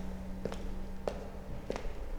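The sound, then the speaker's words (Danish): Faint footsteps walk into a school girls' changing room, a few soft, evenly spaced steps over a low, steady background hum. “Vi går ind i pigeomklædningen og videre ind på toilettet.”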